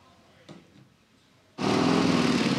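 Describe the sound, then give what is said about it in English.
Motorcycle engine idling as the bike rolls down a road toward a scrapyard; after a quiet stretch the engine noise comes in abruptly and holds as a loud, steady drone to the end. “idles his bike down a road towards his knacker's yard”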